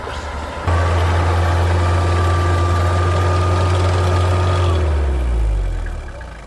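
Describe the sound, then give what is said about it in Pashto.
Idling engines of vehicles stopped in a traffic jam on a road in the Tanawchi area, heard as a loud, steady low hum with a faint higher whine. Near the end the hum drops in pitch and fades slightly. “زه همدا اوس د یادې لارې په اوږدو کې د تناوچي سیمې ته راورسېدم چیرې چې موټر بند دي.”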